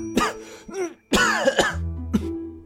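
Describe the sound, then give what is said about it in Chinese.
A man coughs and clears his throat after choking on a mouthful of tea, giving several harsh, strained, spluttering bursts with voiced gasps between them, apparently performed by a voice. “赵普被一口茶水呛住直咳嗽”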